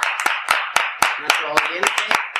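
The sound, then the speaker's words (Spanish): Many sharp hand claps sound in a quick, steady rhythm as applause for the listeners, while voices talk loudly over them throughout. “Un aplauso para todos nuestros oyentes”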